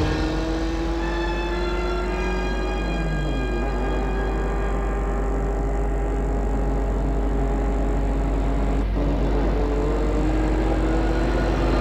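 A car's engine drones steadily as it drives along a road at night toward Lyon, a continuous hum with tones that shift slightly in pitch.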